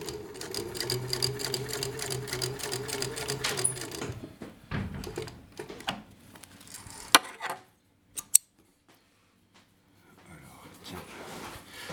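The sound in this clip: A sewing machine stitches a test seam in leather after its thread tension is loosened. A steady, fast mechanical whirr runs for several seconds, then stops and gives way to scattered clicks and handling noises, with two sharp ticks.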